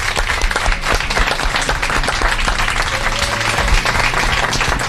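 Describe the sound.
An audience applauds at a live talk event with dense, continuous clapping that stays loud and even throughout, with no voices over it.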